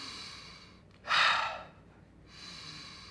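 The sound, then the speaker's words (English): One loud, breathy deep breath taken while standing and bouncing in place to release tension, a single rushing inhale-exhale that rises sharply, fades, and leaves a faint steady hiss. “I'll stand in place, I'll kind of bounce in place, taking 10 deep breaths.”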